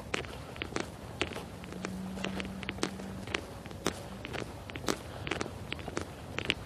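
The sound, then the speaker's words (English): Footsteps of a person walking along, a long run of many soft, irregular steps, faint and with no talking. “So here we go. Walking along.”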